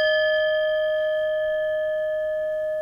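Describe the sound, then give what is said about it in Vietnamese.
A bell rings after being struck with a bell striker. A steady, clear tone with bright overtones holds for the whole stretch and fades only slightly. “nếu tôi cầm cái dù chuông đánh vào cái tiếng chuông này”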